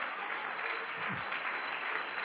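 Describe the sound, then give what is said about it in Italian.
Audience applause at a religious gathering, called for in honour of a mother, with steady, even clapping that sounds somewhat muffled and holds a constant level throughout. “Fate un applauso a mia madre, va?”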